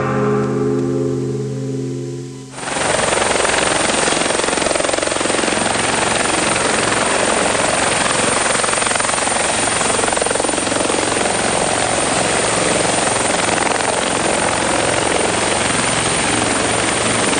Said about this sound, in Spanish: Quería escuchar mucho el helicóptero